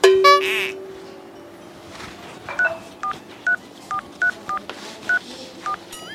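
Touch-tone keypad beeps as a telephone is dialed: a brief tone at the start, then a run of eight short, evenly loud beeps at an irregular pace.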